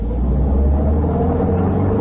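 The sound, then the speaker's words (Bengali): Low, steady engine rumble of a Buick car being driven, an even continuous drone with no distinct bumps or changes. “তিনি গাড়িতে পৌঁছে ড্রাইভারকে বললেন, একটু গঙ্গার ধারটা ঘুরে চলো তো সীতারাম।”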